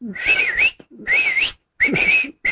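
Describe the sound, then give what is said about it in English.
A person whistles to a canary in warbling, wavering phrases: three long melodic runs separated by short breaks, then the start of a fourth, loud and clear with no other sound. “And he'd begin to whistle at this canary, like,”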